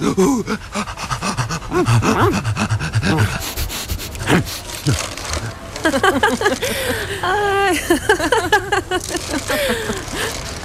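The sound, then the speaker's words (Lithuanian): A dog pants and sniffs around shopping bags, its quick, breathy huffing continuing throughout, while a person talks to it over the sound. “koks šunytis. Ai, ištikėli. Kas po pirkinius šniukštinėja, a? Kas šniukštinėja po pirkinius?”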